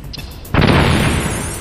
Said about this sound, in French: Utilise les grenades chaff pour l'aveugler et balance une grenade dans le cockpit!